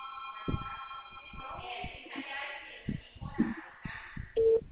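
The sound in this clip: Telephone tones from a call being placed to a bank line on speakerphone: thin steady tones, then a clear sustained beep near the end, mixed with people talking over them.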